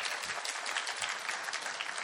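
Church audience clapping to celebrate a member's birthday, a busy, sustained patter of many hands with slight swells in loudness over two seconds.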